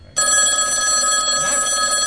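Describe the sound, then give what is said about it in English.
Telephone ringing in a radio station's tally room: an electronic ring that starts abruptly and continues steadily and loudly without a break. “Is that this phone? Where is that? Oh, it is the tally room.”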